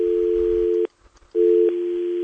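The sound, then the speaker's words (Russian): A telephone dial tone hums as a steady, even tone, cuts out for about half a second, then resumes just as steady and loud until the end. “Я счастлив, что у нас гудит гудок.”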